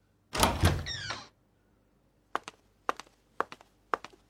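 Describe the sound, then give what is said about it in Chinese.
A door is pushed open with a rough scrape and a brief rising squeak, then after a pause several quiet footsteps tap in at an even pace, with no talk. “有人推门进来”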